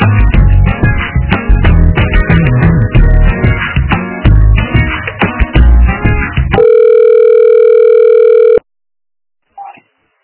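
A telephone line during a call transfer: band-limited phone-line music plays, then gives way to a single steady ring tone of about two seconds, followed by a brief faint blip.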